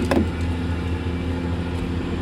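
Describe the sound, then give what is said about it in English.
A speedboat motor drones on Lake Superior, a steady low engine hum with rough, churning texture and a short louder burst at the very start. “jumped behind the wheel of a speedboat with Parent and me to demonstrate the magnitude of the issue.”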